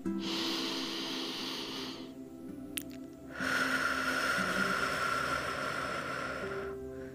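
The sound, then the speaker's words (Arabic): Slow breathing during a calm body-awareness exercise, air drawn in and let out: two long, soft, airy breaths separated by a short pause, faint and unhurried, with no talking. “نسمع الهواء كي يدخل وكي يخرج”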